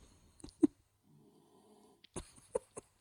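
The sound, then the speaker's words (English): Faint snoring in the background: a soft, rough, drawn-out breath, with a few scattered snorts and clicks around it. “if you're wondering what this noise in the background is, it's Ringo snoring”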